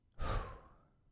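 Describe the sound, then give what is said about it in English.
A single soft breath released through the mouth in a breathing exercise: a brief breathy whoosh that rises quickly, then trails off into quiet. “take two short breaths in through the nose. And then release through the mouth.”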